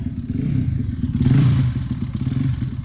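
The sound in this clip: A motorcycle sets off around a race circuit, its engine a loud, steady low throbbing rumble with a rough, pulsing texture that briefly brightens partway through.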